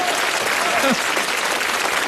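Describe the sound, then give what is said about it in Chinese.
Audience applause rolls on as a dense, sustained patter of many clapping hands, fairly loud and even, with a voice briefly heard over it. “不是，你等会儿，您先别鼓掌 啊。”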